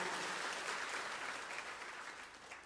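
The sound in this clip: An audience claps their hands in praise during a church service, a dense, steady wash of applause that slowly fades toward the end.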